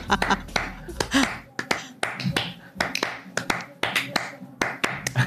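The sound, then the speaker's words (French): Bare hands drum a Spanish-style rhythm, with many crisp, sharp slaps and claps falling in quick, uneven bursts separated by short pauses. “Bon, alors t'as des mains tambour. Est-ce que tu arrives à nous faire un petit truc espagnol comme ça?”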